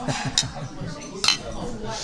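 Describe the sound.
Glasses clink in a toast, with two bright, short chinks standing out amid people talking and a murmur of background voices.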